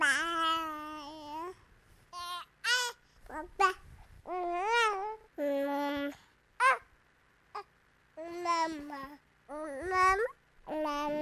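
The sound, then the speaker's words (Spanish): A baby babbles its first word-like sounds: a run of short voiced syllables and longer drawn-out cries whose pitch wavers up and down, separated by brief pauses. “Ahora estamos escuchando la voz de un bebé diciendo sus primeras palabras. Casi siempre es mamá.”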